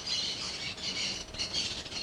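Birds sing in a dense, continuous chorus, with bright, overlapping calls and chirps that hold steady and fairly loud throughout, with no voices.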